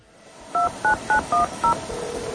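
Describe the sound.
Touch-tone telephone keypad beeps as a number is dialed: five short, evenly spaced dual-tone beeps over a steady background hiss, followed by a fainter steady tone.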